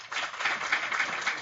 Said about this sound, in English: And if you think the artificially cultured red cells is fiction,